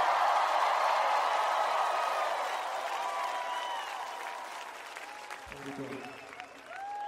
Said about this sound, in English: Everybody make some noise for the King of the Kings when it comes to singing and playing